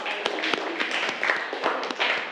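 Applause from an audience for a group that has just presented fabric-scrap flowers for table decoration: dense, steady clapping with scattered sharper claps throughout.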